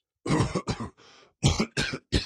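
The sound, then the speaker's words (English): A king coughing uncontrollably: five harsh, loud coughs in a rapid irregular burst, with a quieter breathy rasp between the second and third, and no talk. “The king was coughing uncontrollably.”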